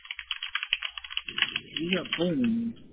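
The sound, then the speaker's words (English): Rapid clicking of a computer keyboard being typed on, many light clattering keystrokes in an uneven rhythm, after which a voice starts speaking while a few faint clicks continue. “He's on the phone. He's typing”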